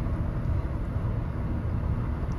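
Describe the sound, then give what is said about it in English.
Steady low road and engine rumble fills the inside of a car driving home from Tampa airport, a constant even drone with no talking. “So, I'm currently driving home from the Tampa airport”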